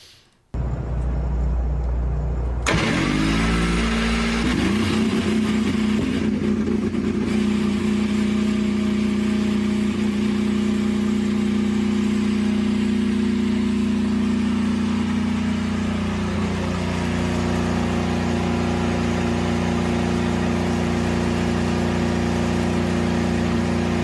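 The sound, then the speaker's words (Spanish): A car engine runs and revs, climbing sharply in pitch after a brief low rumble at the start. It then holds a loud, steady, buzzing drone for about twenty seconds, with a slight shift partway through. “se escucha ese track que me parece vale la pena volver a escuchar. Y el sonido del motor también.”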